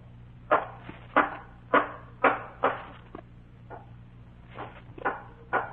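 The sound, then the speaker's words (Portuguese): Hammer-like knocking, strange blows heard at night coming from a church, struck as a series of sharp thuds with short decays, mostly steady in rhythm, a few noticeably fainter, heard alone. “Parecia um martelo batendo.”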